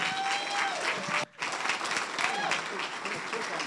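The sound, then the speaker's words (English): A church audience at Refuge Church stands and applauds to welcome a guest pastor, a dense, steady clapping that briefly drops out for a moment before resuming, with a voice speaking over it. “Would you do me a favor? Would you stand at your feet and give him a warm Refuge welcome?”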